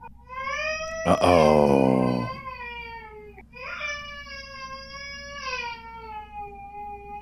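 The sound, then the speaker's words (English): A one-year-old baby fusses after waking up. A loud, squealing cry comes first, followed by longer wavering whines. A brief spoken word is also heard. “Should we just like apologies in advance that my 1-year-old woke up? So if you hear baby noises in the background from now on, just ignore it.”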